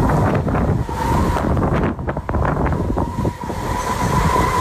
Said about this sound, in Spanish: la tramontana no sopla. En Portbou vive la tramontana.